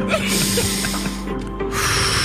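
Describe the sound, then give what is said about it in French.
Hard breathing through a congested, snotty nose, a continuous rough nasal rush of air with snorting texture and no talk. “On respire fort par le nez.”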